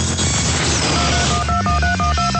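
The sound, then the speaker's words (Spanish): Touch-tone telephone dialing tones from a push-button phone: a quick series of short, steady beeps over a dense, continuous background. “cuando en Estados Unidos se introdujo la señal de tono al tacto y llegaron los teléfonos con botones”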